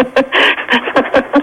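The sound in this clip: Panting from a dog with a broken leg: a quick, rhythmic run of breathy huffs, about six in a row, with no voices over them.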